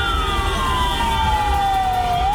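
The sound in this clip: An ambulance siren wails through traffic jammed by football promotion celebrations in Bitlis. The loud, steady tone glides slowly downward and turns upward again near the end, over a continuous low rumble of vehicles.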